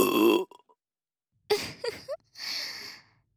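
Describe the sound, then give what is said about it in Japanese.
Burping, a few loud, deep, croaky burps separated by short silences, with no talking. “私のゲップエロかった？”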